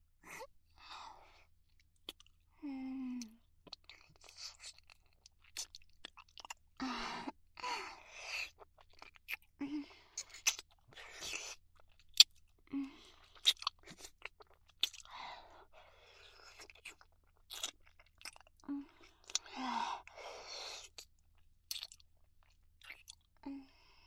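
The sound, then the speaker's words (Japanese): Kissing sounds, many soft wet smacks and lip pops arriving in irregular clusters with short quiet gaps between them, faint and intimate throughout. “こうしていっぱいチューしたかったの。”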